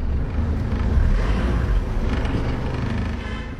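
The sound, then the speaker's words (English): Steady rumble of a car driving along a road east from Kigali into Rwanda's Bugesera district, a continuous low-heavy drone of engine and tyre noise with no voices. “We are driving east from Kigali into Bugesera, one of Rwanda's warmer and drier districts.”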